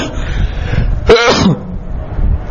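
A single sharp sneeze bursts out over a steady background hiss, loud and brief, lasting under half a second before the quieter noise resumes.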